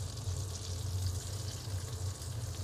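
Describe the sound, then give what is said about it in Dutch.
Fennel wedges sizzle as they fry briefly in a pan, cut side down, giving a steady, even hiss over a low hum, with no talk. “En die bak ik ook heel eventjes aan.”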